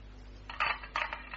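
A key is tried in a lock, giving a short burst of faint metallic clicks and rattles that come in a few quick clusters over a low steady background.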